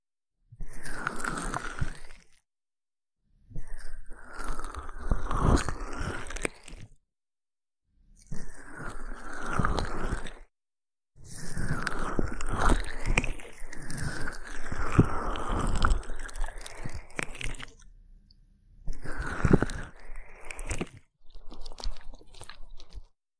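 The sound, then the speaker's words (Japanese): Fingertips and palms kneading ears in a slow massage, giving soft, moist crackling and squishy rubbing in several long bursts separated by brief silences, with no talking. “お客様のお耳をこねるように、じっくりとなじませて、プルプルでしっとりしたお耳にさせていただきます。”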